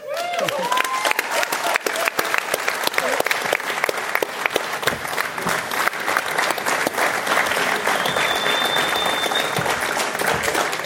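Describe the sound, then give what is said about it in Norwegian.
Audience applause at a festival event: dense, loud, steady clapping that holds at an even level for the whole stretch without pausing. “Vi skal alle sammen fortsette litt på applausen, og så skal vi si tusen hjertelig takk til Jens Arne Vello og Jon Mikkel Nysgaard.”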